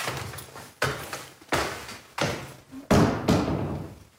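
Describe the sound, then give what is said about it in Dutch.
An attic hatch being opened, heard as a steady series of heavy wooden thuds and knocks at regular intervals, each one fading quickly, with no talk. “Luik gaat open, Jan verdwijnt op zolder.”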